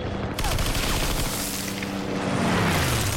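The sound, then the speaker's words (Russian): Machine gun bursts across a trench in a war film battle scene, dense rapid gunfire with heavy booming impacts filling the whole stretch at a loud, constant level. “Пулеметная очередь пересекает окоп в метре от бойцов.”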